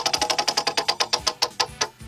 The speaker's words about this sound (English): Spin the wheel. I'm going to go ahead and give this a spin.